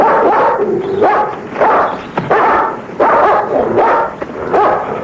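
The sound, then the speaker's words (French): Dogs barking as they run after a man at a car door: a busy stream of many excited barks, yelps and whines with shifting pitch, loud and nearly continuous. “Mais, où il met la main sur la portière, les chiens courent et aboient après lui.”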